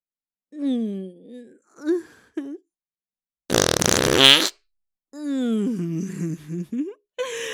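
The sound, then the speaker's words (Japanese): A single loud, rough, sputtering fart lasts about a second. Breathy vocal moans and sighs come before and after it. “開いた穴からくっさいおならいっぱい出ちゃう。”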